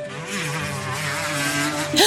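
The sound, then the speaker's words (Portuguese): A motorcycle races at full speed along dusty routes among trees, plants and small hills, its continuous droning engine wavering in pitch and swelling louder in the final moments. “Que som é esse? Alguém está andando de moto a toda velocidade.”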